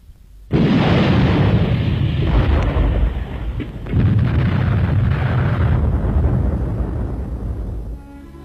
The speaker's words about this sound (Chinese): 队伍刚刚撤走，敌人的炮弹便在空阵地上爆炸。